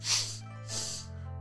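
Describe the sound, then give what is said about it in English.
Two slow exhales through the nose, soft breathy hisses of about half a second each, separated by a short pause, with a faint low steady hum underneath. “Slowly exhale through the nose. And slowly exhale. Make sure your exhale is as long as possible”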